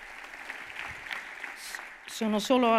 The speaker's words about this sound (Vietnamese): chúng ta thấy tất cả mọi người đều vỗ tay khi nói đến 4 sinh viên đã đến từ Palestine được nhận cũng đang được học tại đây.